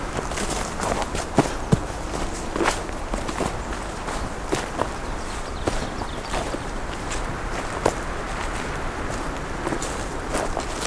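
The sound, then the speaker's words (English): Footsteps walking down a hiking trail: a steady run of many soft steps over constant background hiss, with no talk. “I'm just going to walk down it a little bit, see how far one has to go until you see trail marker.”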